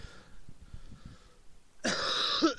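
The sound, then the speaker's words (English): A single loud, harsh cough breaks out after near silence, followed by a raspy, wheezy throat sound that carries on to the end. “Excuse me.”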